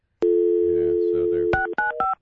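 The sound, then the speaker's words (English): Telephone being dialed: a steady dial tone holds alone, then gives way to a few quick, bright touch-tone beeps in succession. “Who are you calling now? All right, failing at dialing the phone.”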